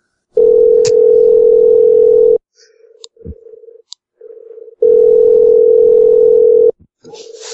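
Telephone ringing tone heard over a phone line: two long, steady, low-pitched tones of about two seconds each, separated by a pause filled with brief, quieter blips and clicks.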